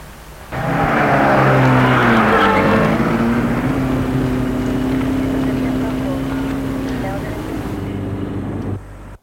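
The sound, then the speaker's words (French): A taxi's car engine starting and driving off. A loud droning engine comes in abruptly, climbs slightly in pitch, then holds steady for several seconds before cutting out. “le taxi démarre”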